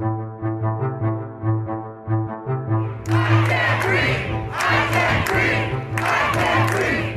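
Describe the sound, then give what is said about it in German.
Protesters crowd US streets after George Floyd's death; a low, pulsing tonal drone opens, then a loud crowd roar takes over, with several surging bursts of shouting and chanting. “Tausende Menschen protestieren, überall in den Vereinigten Staaten. Sie protestieren laut, aber sie protestieren meist friedlich.”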